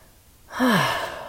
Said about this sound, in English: which I'm trying to practice right now in this recording, is just to take a breath